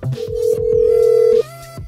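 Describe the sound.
Telephone tones from an incoming call: a short low beep, then a loud, steady electronic tone held for over a second before it cuts off, followed by fainter tonal sounds.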